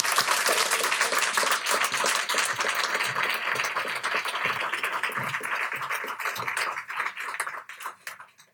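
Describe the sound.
Audience applause welcoming two speakers at Politics and Prose: dense, sustained clapping from many hands that holds steady, then thins and fades out over the last moments.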